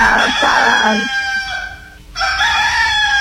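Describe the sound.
A rooster crows, a loud, drawn-out harmonic call with a strained, wavering tone, followed after a brief break by another sustained crow.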